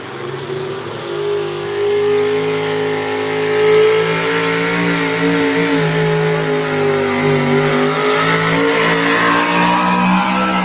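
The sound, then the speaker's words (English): A 650 cubic inch truck pull engine from a four-wheel drive truck pull class revving hard, a loud, sustained roar with strong steady harmonics and a slight wavering in pitch throughout. “this is what these guys did in the four-wheel drive class. 650 cubic inch Sonny Leonard truck pull motor.”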